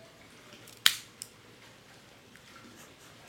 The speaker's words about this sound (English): Let's give it a cut here and test out the cold draw. I am using my Cassetti dual cutter and using my normal V-cut.